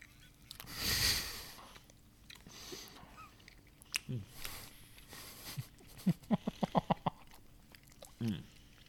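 Biting into and chewing a lime-flavored Takis meat stick: a soft bite, then scattered faint crunches and a quick run of short, wet chewing clicks, with no talking.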